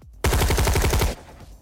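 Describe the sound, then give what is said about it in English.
A rifle fires at full automatic burst in a warehouse, a loud rapid string of about ten sharp shots lasting roughly a second, then cutting off abruptly into a faint tail. “He loaded a full clip into his rifle and walked down the steel steps that linked the gantry to the floor of the warehouse, firing his gun at full burst.”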